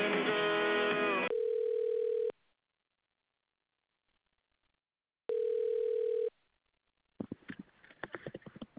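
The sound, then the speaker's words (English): A steady telephone tone follows a call on hold being disconnected. It sounds twice, in one-second bursts separated by silence, and is followed by faint clicking and handling noises. “I just was on hold for the information about the M-School, but it got disconnected.”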